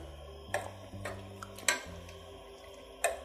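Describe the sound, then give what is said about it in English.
Faint clicks of a spoon against a pot while salt is stirred into simmering tomato sauce. A few sharp ticks sit over a low, steady hum. “I'm gonna add a few pinches of salt. Stir it in.”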